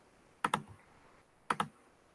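Two quick pairs of sharp clicks from a computer mouse as an online template is selected, fairly quiet and crisp, with a short pause between the pairs and no talking.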